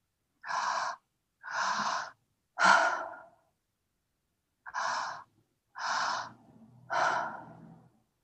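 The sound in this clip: Breath sounds from a breathing practice for energy and focus: six soft, airy breaths released one after another with short pauses between them, faint and with no voice.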